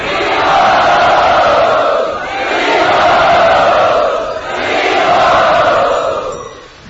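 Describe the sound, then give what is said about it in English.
Temple devotees loudly chanting Hari Bol in a welcome. Many voices rise together in three long, sustained swells, each briefly dipping before the next. “So we would now like to welcome Srila Romapad Maharaj to Sri Radha Gopinath's temple by chanting Hari Bol.”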